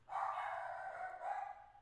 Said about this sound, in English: Excuse the dog.